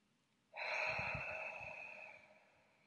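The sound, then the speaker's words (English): A single big, deep breath, loud at the start and slowly tapering off over about two seconds, heard alone with no talk. “let's take a big breath.”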